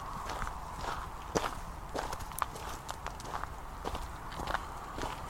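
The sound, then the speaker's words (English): Footsteps crunch on loose pebbles while walking down a steep path, making a steady run of many uneven, gritty steps with small scattering clicks, fairly loud and without voices. “Down and down we walk, getting steeper and steeper all the time. Little pebbles threatening to just tumble away beneath the tread on our”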